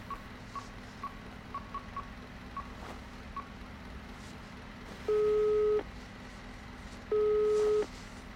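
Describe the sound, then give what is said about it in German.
Ringing tone of an outgoing phone call to a forensic medicine office: two steady tone bursts near the end over a constant background hum, with a run of faint small ticks earlier. “Moment, ich rufe mal in der Gerichtsmedizin an, ob Paolo schon da war.”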